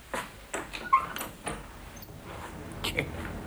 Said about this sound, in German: Ich mach mal das Fenster auf, ein bisschen frische Luft.